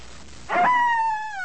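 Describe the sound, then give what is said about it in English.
A wolf howls once, a single loud sustained tone that holds steady and then slowly sinks in pitch as it trails off. “That was a wolf.”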